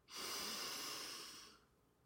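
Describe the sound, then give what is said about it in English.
A single deep breath drawn in, a breathy, airy rush of air that holds steady for about a second and a half and then tapers off, with no voices. “Let's all take a collective deep breath. We are together, yet we are apart. So let's inhale.”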